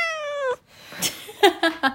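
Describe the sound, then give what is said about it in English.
A house cat meows indoors: one long, drawn-out meow that sinks slightly in pitch, then a gap and a few short, chirpy meows in quick succession, clear and alone. “That's my cat.”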